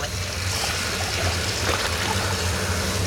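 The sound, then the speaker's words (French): Water swishing as a plate is dipped into it to make twin vortices: a steady, hissing wash of moving water with a brief stronger surge midway, while a voice talks over it. “Alors je vous invite à mettre la tête sous l'eau et à regarder ce qui se passe quand je trempe l'assiette.”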